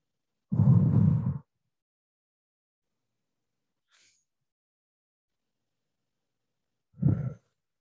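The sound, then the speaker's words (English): Deep breathing during a guided relaxation exercise: one long, loud, sigh-like breath, then a long silence and a second, shorter breath near the end. “take a deep breath. Inhale and exhale. Maybe we do this 3 times.”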